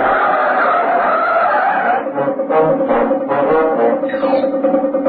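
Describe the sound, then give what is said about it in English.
Tires squeal loudly as a speeding taxi swerves violently into a side road during a police chase, a continuous, wavering screech that fills the whole stretch with no voices. “The speeding taxi careers along South Union Street and swerves violently into Warmer Road.”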